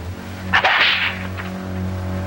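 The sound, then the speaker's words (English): A whip lashes a man's bare chest in a palace dungeon: a single sharp, swishing crack with a brief trailing whoosh over a low, steady hum. “Omar winces as a whip lashes his bare chest”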